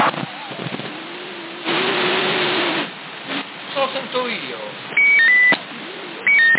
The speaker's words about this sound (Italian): sento solo la tua voce, il bip. Il doppio bip.